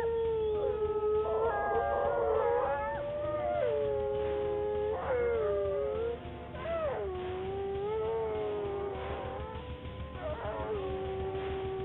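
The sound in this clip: Wolves howling from far off and from all sides, several long, wavering howls rising and falling in pitch and overlapping one another, with some higher yelping cries, steady and unbroken for the whole stretch.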